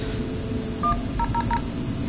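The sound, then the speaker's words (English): Telephone DTMF keypad tones dialing into an Asterisk server: four short, faint beeps, one followed by a quick run of three, over a steady background hiss. “I'm just going to dial into the Asterisk server and let it play the voice prompts for that side of the connection.”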